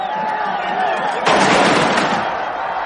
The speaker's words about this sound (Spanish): Soldados en formación disparan una salva ante un paso procesional seguido por nazarenos con capirote.